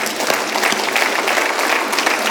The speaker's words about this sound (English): All of a sudden, you just say, I'm applauding Jesus.